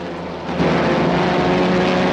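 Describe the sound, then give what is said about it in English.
A propeller airplane flies with a droning engine roar that swells louder after the first half second, then holds as a dense, steady buzz. “With a smile, he directs his plane towards them.”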